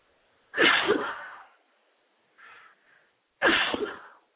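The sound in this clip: Two sharp, loud human sneezes, separated by a pause of about three seconds. A faint breath or sniff falls between them.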